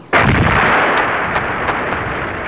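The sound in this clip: Gunfire during an aerial combat engagement against enemy aircraft: a sudden loud blast opens into a sustained, dense roaring rumble, with a few sharp cracks cutting through it.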